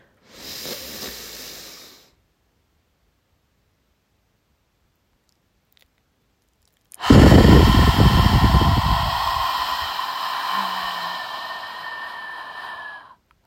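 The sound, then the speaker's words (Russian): Deep belly breathing: a short breath trails off, then after a long silence comes one long, loud, airy breath that slowly fades. “Теперь вместе со мной вдыхаем животом.”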